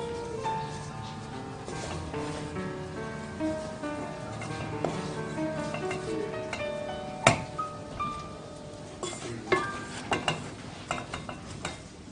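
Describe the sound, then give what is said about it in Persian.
A spoon stirs a mixture of ginger, almond powder and cardamom in a pan with the heat switched off, giving soft continuous scraping, then a few sharper clinks toward the end. “زنجبیل، پودر بادوم و هلورد اضافه میکنیم. موادمون رو کاملا مخلوط میکنیم.”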